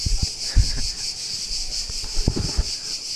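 Insects chirp outdoors in an urban community setting, a steady high-pitched chorus that pulses rhythmically throughout. A few soft low thumps and rubbing noises sit underneath.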